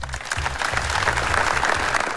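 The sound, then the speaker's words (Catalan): Applause breaking a minute of silence at a memorial for three children swept away by currents: a short, steady burst of clapping at a modest, even level lasting about two seconds. “S'ha guardat un escrupolós minut de silenci només trencat per aquests aplaudiments.”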